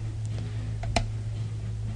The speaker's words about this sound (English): And you just button your bottom tray piece back on. They snap on either side there, front and back.